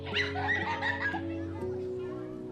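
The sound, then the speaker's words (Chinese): Children laughing and playing at home, their high giggles and excited chatter bursting in lively clusters before settling over a steady tonal hum. “打开家门的一瞬间，饱蘸幸福味道的 孩子嬉闹声。”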